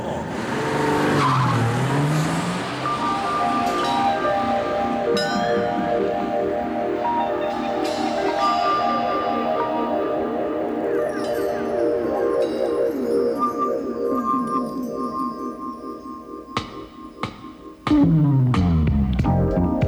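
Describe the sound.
Tire hum from a car driving over the Toyota Music Course melody road, a steady droning tone with shifting pitched notes over road noise, continuing for the whole stretch and swelling louder near the end.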